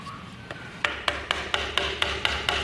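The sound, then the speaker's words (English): A chisel is struck into timber in quick, short hits while cutting a circle in a carving workshop. The knocks are sharp and woody, coming in a fast, evenly spaced series with a couple of lighter taps at the start. “So each chisel and each timber has a different sound when you're carving.”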